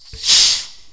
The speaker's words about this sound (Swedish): det var julmust. Det är ljudet av varm Pepsi.